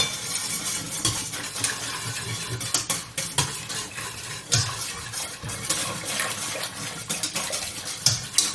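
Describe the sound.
Thick sauce is stirred in a pot as it is brought back to the boil, with a steady run of soft scraping and sloshing strokes, fairly faint and with no talk.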